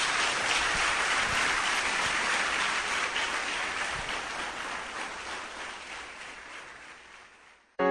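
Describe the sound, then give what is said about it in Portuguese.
A church audience applauding loudly in praise during a sermon: dense, sustained clapping starts strong, then slowly fades until it is cut off at the end. “Vamos aplaudir o nosso Deus, bem forte.”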